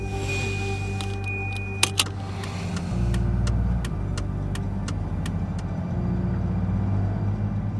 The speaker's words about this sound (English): We drive less than 3 kilometers away and arrive at the Melbourne Cemetery in Carlton.